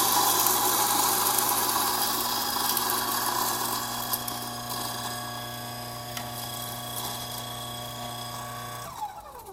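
A coffee grinder grinds Ecuador Pillcocaja Sidra beans with a steady, whirring motor hum and gritty crunching that holds evenly for several seconds before cutting off abruptly near the end.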